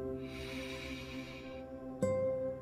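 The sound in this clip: A deep breath drawn in through the nose hisses softly for about a second and a half during a guided meditation. It sits over a steady, calm tonal drone.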